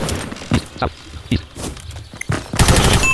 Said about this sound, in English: Not with that gun, you don't. Stoner on a rage!